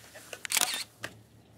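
A camera shutter clicks as a photo is taken, with a few faint, crisp mechanical clicks close together and a brief burst of clatter in the middle, then quiet.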